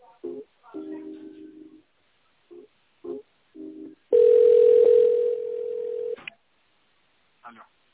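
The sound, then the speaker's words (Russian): Telephone line tones heard while a call is put on transfer: several short beeps of uneven length, then a loud steady tone lasting about two seconds that drops slightly in level, and one faint final blip. “Секунду переключу.”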